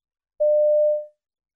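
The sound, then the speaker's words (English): A single voicemail recording beep: one steady, mid-pitched electronic tone lasting under a second. It starts abruptly, fades quickly at the end, and silence surrounds it. “You have 40 seconds to leave your voicemail. Start speaking when you hear the tone.”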